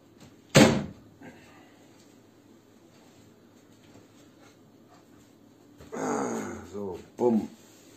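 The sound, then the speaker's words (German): A tilt window is shut with one sharp, loud thud, followed by several seconds of near quiet before a person starts talking. “ich muss eben aufstehen und dann mein Kippfenster mal eben zumachen”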